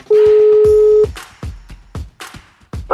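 A telephone number being dialed: a steady dial tone holds for about a second, then a few short clicks and tones follow as the number is entered, ending on a brief higher tone.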